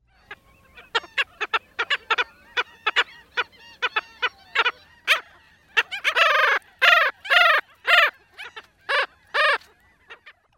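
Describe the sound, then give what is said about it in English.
Bark-like calls of a black skimmer, a coastal bird. A run of short, clipped yaps gives way to longer, louder nasal barks, with many calls in an irregular rhythm. “If you guessed a black skimmer, you were right. And if you guessed sea dog, you're also right, because a bark-like call helps give this coastal bird that canine”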